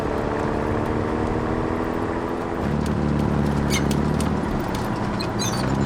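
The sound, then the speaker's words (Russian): A light armored car drives beneath a fortress wall. Its engine is a continuous rumbling drone that drops to a lower, heavier tone partway through and carries on steadily. “Под стеной крепости едет легкий броневик.”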